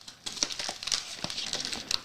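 Crinkling plastic snack packaging, a cheese snack opened at a lift-to-open flap, with a silver plastic inner bag. Sharp, irregular crackles and rustles come in quick bursts for about two seconds, alone and without talk.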